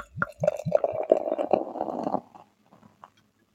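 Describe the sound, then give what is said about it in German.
Liquid glugging as it is poured from a full crown-capped bottle, with a quick series of hollow, gurgling pulses that run together and then trail off into a few faint drips. “Und dann machen wir nochmal auf. Ja, okay. Da sind wir. Ui, die ist ganz voll, die Flasche.”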